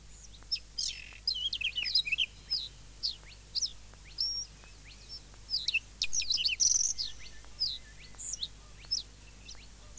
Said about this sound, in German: Haben Sie es gehört? Seltene Vögel kann man hier hören, hier im Naturparadies.